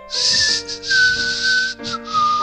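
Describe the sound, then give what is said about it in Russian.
A man whistles a short tune, a clear, high and steady tone in a few phrases separated by brief gaps. It is loud and alone. “свистит”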